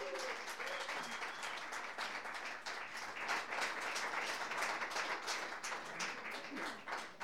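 Audience applause welcomes the performing duo, a dense, steady wash of many hands clapping that holds at an even loudness for the whole stretch.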